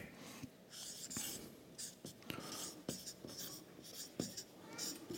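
Handwriting with a pen on paper: faint, scratchy strokes in irregular short bursts with brief pauses between them.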